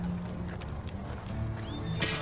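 Horse hooves clip-clop as a horse walks along a main road, flanked by two ATVs. The hoofbeats are steady and faint, over a low continuous rumble.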